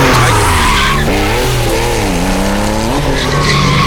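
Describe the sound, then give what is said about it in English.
Loud, continuous tyre squeal from a car skidding through a handbrake turn, its pitch wavering up and down over engine roar for about four seconds, with no talk. “Could you keep your left arm in, please? I think the next one might need the handbrake.”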